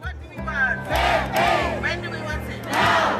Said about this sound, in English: That's the sound of women nurses on the street in London calling for better pay in 2023.